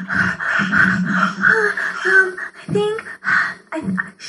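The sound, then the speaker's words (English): A voice imitating heavy, panicked breathing in the manner of a found-footage horror film, a run of loud, breathy gasps with voiced catches in an uneven rhythm broken by short pauses. “You would, breathe a lot,”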